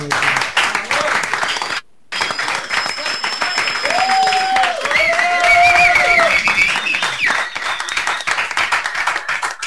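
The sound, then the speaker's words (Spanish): Crowd applause and clapping at a party event, dense and loud throughout with one brief drop near the start, mixed with voices. “fuerte el aplauso”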